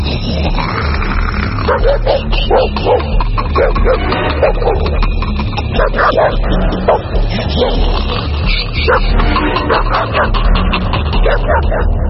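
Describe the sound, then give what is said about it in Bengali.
A dog barking inside a rooftop attic room: many rapid yips and barks in a loud, dense, unbroken stretch, mixed with whimpering tones. “ভিতরে আমার কুকুরটা ডাকছে”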